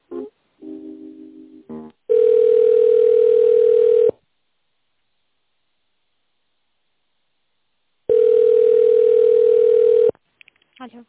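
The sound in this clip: A telephone ringback tone plays while a call is being transferred: two long, steady, mid-pitched tones of about two seconds each, separated by a silent pause. Brief, fainter sounds come before the first tone and after the second.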